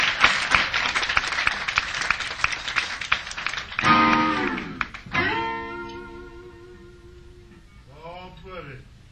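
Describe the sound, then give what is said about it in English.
Audience applause for the drummer at a live show: a dense, even patter of clapping that fills the first few seconds, then ends as a man starts speaking. “The drummer, let's give David a big round of applause.”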